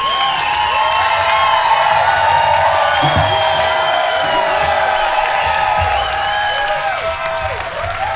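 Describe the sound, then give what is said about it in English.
A large live concert audience cheers, clapping and whooping in a loud, continuous roar, with many high shouts rising and falling across the whole stretch. “Thank you, live audience. Sounds like there's 14,000 people out here.”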